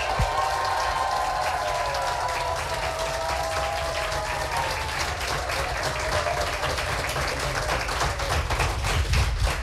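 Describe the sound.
Audience applause at a live text competition, answering a call for how loud they will be for a 10-point text: sustained, dense clapping that stays fairly even in level for the whole stretch.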